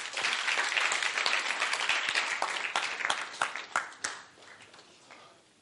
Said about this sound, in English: Your clap was weak.